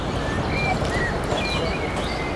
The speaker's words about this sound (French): Des oiseaux, un coucou, la mer, un bateau au loin, des gens qui se baladent.